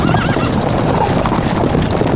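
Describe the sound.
Horse hooves clip-clopping in a loud, rapid, steady beat that runs throughout, with a brief whinny near the start.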